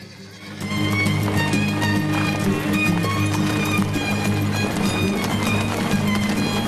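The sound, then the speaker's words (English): Horses' hooves clip-clop steadily as they pull a coach along a rocky crevice path. The even, busy hoofbeats run under sustained music throughout. “The horses pull the coach through a rocky crevice path.”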